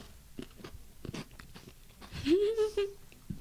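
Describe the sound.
Crisp crunching and chewing of almond chocolate, with a few sharp bite clicks and soft mouth sounds at a moderate level and a short voiced tone partway through.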